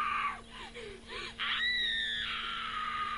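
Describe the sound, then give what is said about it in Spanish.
Screams from a horror slasher film playing in the background: a few short, wavering cries, then a long, high, sustained shriek, loud and without talk. “¿Pero quién chilla? Ah, que está viendo una película de Viernes 13, seguramente, mientras hace gimnasia.”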